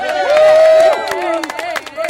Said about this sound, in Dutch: Een applaus voor Douwe.